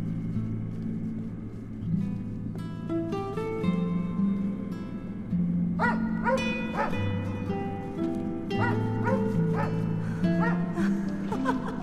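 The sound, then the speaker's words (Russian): A dog barking and yipping on a dark, puddled road, many short, sharp barks clustered in the second half, set over a steady low droning background. “Бежит ее собака.”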